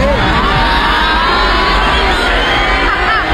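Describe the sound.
A concert crowd boos a performer in a loud, unbroken wall of voices, with scattered yells and whoops rising out of the dense noise.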